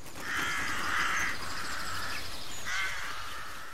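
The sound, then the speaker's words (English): Harsh, cawing bird calls at a farm with ducks and other animals, sounding in a few long nasal bursts over a steady background hiss. “Look at the birds.”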